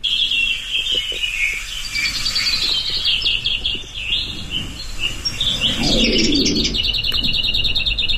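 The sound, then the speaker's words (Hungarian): A lesser whitethroat sings in bursts of high, rapid chattering and twittering notes, loud and continuous over faint outdoor background, with a lower soft rustle or warble near the end. “Akkor most hallgassuk meg, hogyan énekel a kisposzáta.”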